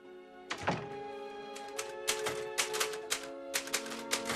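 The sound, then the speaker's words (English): Typewriter keystrikes on a machine with a badly fading ribbon: faint, irregular clacks, sparse at first and then a steady run of strikes, over sustained background music tones. “The printer ribbon is fading badly now, but Paul types on.”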